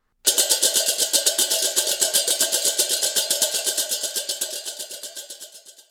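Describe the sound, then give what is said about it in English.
Chang chang crash cymbals from an eight-pair section play interlocking patterns, making a rapid, even stream of many bright crashes that blend into a continuous shimmering pulse and soften toward the end. “and interlocking patterns like this.”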